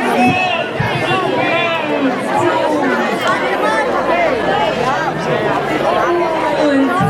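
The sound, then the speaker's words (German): A crowd chatters at a lamb auction during the St. Anna maypole festival, a dense, loud mass of overlapping voices that runs without a break. “Im Hintergrund hört man gerade, wie ein Schäfchen versteigert wird. Gemäß der Tradition beim Maibaumfest wird in St. Anna ein Schäfchen versteigert und ein anderes wird losgezogen.”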